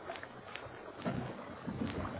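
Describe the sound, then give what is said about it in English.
Faint, steady rumble and washing of water as a cargo boat sets out, mixed with gusty wind noise, low-level and continuous without any voices. “Well, here we go. Now, you sit still, Lucky. Yeah. The further we go out in the boat, the smaller the boat looks.”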